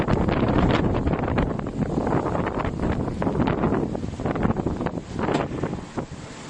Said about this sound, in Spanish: Oímos el viento